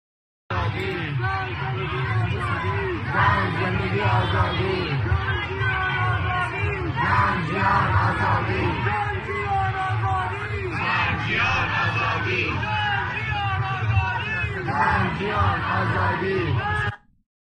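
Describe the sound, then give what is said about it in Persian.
Protest demonstration crowd chanting, with many voices yelling and shouting together in a loud, unbroken roar that lasts the whole stretch. “این هم از تظاهرات دوستانمون دیشب ما”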